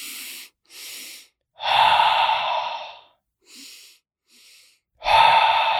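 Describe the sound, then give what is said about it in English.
Breathing exercise with hands on chest and stomach: two quick sniffs in through the nose, then a long, breathy exhale out through the mouth. The whole pattern plays twice, each sharp and alone. “you breathe twice through your nose and then a long exhale through your mouth. Like you're trying to steam up a mirror.”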